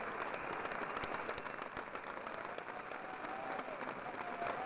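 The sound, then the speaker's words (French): Applause from an audience at a live show, with dense, even clapping that stays steady throughout, heard on a recording of poor sound quality. “C'est beau, hein? C'est des applaudissements.”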